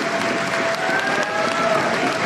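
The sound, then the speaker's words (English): Applause fills a gym as a crowd responds at the end of a formal apology to the Tlingit people of Angoon. The clapping is dense and sustained, holding a steady loud level throughout. “As he finished, the gym filled with applause.”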